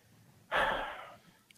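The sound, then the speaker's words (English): A single sharp breath: a sudden, breathy rush of air that starts abruptly, lasts under a second, then tapers off, heard alone against near silence. “Did you hear that breath you just breathed”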